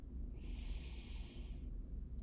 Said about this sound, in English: One more time, deep breath in.